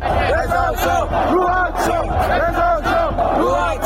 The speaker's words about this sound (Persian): تماشاگران عصبانی اصفهانی که به این درخواستشون احترامی گذاشته نشد در ادامه شعار رضا شاه روحت شاد سر دادن